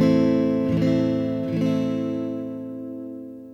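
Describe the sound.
An A minor chord strummed three times on guitar, fingered at the first fret on the second string and the second fret on the fourth and third strings; each strum rings full, then the final one slowly fades.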